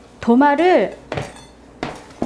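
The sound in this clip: A plate of bread is set down during sandwich making, with a hard clatter followed by a few short, sharp clinks of dishware spaced apart.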